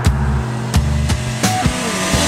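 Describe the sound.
A car engine speeds hard along a toll road, a loud, steady roar with tonal harmonics that step and slide as it pulls. Several sharp breaks, like gear changes, interrupt it, and no voices are heard.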